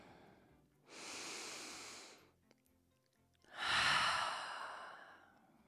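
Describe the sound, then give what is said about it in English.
A person taking a slow, deep breath: two long, soft, airy breath sounds separated by a short pause, the second one louder and longer, with no talking. “I would love to invite everyone listening and myself in this moment to just go ahead right now and take a really deep breath.”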